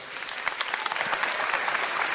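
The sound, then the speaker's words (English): Audience applause greets a guest speaker at a weekend gathering: dense, continuous clapping with many overlapping hand claps, holding a fairly even loudness throughout with small flickers of individual claps. “give a warm round of applause to Dr. Bruce Ware.”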